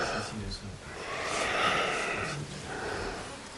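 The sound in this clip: Deep inhalation during a breathing exercise demonstration, with the shoulder blades opening as the breath is drawn in: a long, breathy inhale that swells to its loudest in the middle, then eases off.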